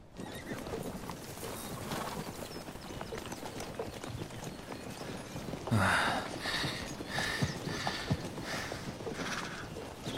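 Horse hooves clip-clop steadily throughout a long ride in a Viking-era Northumbrian setting, an even rhythm of many hoofbeats, with a brief horse whinny about midway.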